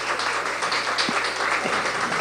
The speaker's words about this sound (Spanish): Un saludo, un aplauso a todos ustedes.